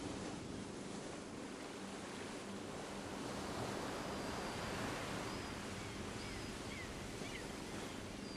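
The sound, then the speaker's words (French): Ocean waves wash steadily at sea, heard from a boat, as a continuous broad rushing hiss with faint wind. There are no clear separate breakers, and the sound stays even and moderately quiet throughout. “Réchauffez-vous au soleil brillant alors que vous écoutez les sons de l'océan et du bateau.”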